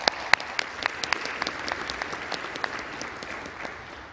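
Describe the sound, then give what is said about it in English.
Applause from a room audience welcoming viewers watching online and on television: many overlapping claps with some sharper individual hits, steady throughout and fading slightly at the end. “please make our television online audience welcome, please. Give them a big hand.”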